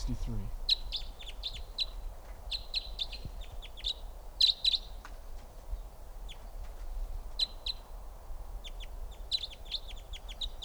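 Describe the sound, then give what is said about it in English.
Wild birds chirp near a mist net, many short, high-pitched tweets coming in quick clusters over a steady low background hum, with one louder burst of calls partway through. “Birds are really flying around. I got two in the net here.”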